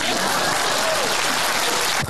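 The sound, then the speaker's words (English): Audience applause at a political campaign speech, right after the speaker asks people to clap: a short, dense and steady burst of clapping at even loudness throughout. “Please clap.”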